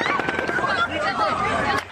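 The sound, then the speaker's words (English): Gunfire crackles as rapid, sharp pops through a chaotic scramble, heard under loud, frantic shouting voices. “Stay down! Wait till the gunfire stops!”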